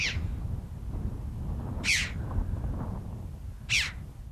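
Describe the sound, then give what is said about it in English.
A red-billed chough calls in Cornwall: three sharp, high, downward-slurred squeals spaced roughly two seconds apart over a steady low rumble. “getting a glimpse of the chough with its acrobatic displays and distinctive red bill and legs, and it's often heard before it's seen.”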